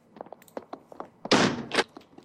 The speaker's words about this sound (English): He locked the door.